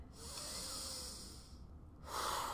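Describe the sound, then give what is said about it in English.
Slow, deep breath in, a soft and airy hiss lasting well over a second, then a brief pause and the start of another breath; faint throughout. “Just breathe in, breathe out. Breathe in,”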